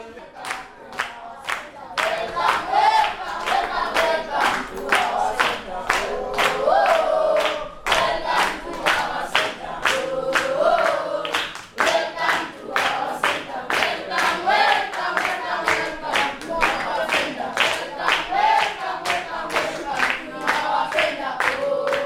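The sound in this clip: Children at the Grandsons of Abraham Center sing a welcome song as a loud group, with steady rhythmic hand clapping throughout.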